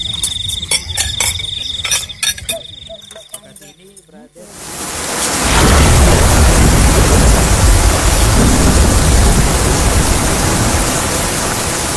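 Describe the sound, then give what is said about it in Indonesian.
Heavy rain in a village sets in as a dense, steady hiss after a few seconds of high insect-like chirping, then stays loud and even to the end. “Duh guys, hujan lagi gimana dong? Iya hujan ya. Selama kita di sini, perasaan hujan terus deh.”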